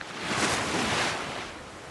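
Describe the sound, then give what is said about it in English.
Ocean surf and breeze on the beach at Miami Beach: a broad, continuous wash of rushing water and wind that swells gently and eases back, with no voices. “Miami Beach, a breeze blows in the hot sun.”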